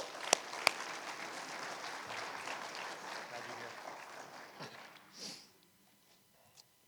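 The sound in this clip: Audience applause welcoming a missionary speaker at a church service, soft, steady clapping that gradually fades away near the end, followed by quiet.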